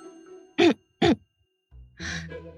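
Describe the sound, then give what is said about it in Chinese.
A man clears his throat with two short, rasping bursts in quick succession, then a softer, longer low vocal sound. “他清了清嗓子，硬着头皮喊”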